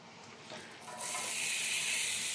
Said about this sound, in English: Okay, so now we're gonna crank back up a little bit here. Go back to the medium high. I'm gonna add my onions.